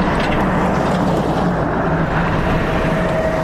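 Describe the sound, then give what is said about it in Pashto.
An aid vehicle rumbles along a rough, rocky mountain road to Baghran district in Helmand. The engine and road noise form a continuous loud low roar with a windy hiss over it, unbroken and with no voices. “د باغران ولسوالۍ ته پر غزیدلی کنډ او کپر سړک د روان هغه کومک لرونکي بایپور موټر ژغ دی”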